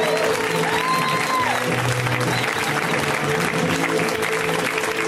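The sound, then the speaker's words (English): Audience applause for the host at a comedy show: dense, steady clapping mixed with crowd noise that holds at an even, loud level for about five seconds. “Let's hear right now for Steve Hernandez, guys. Give it up for Steve.”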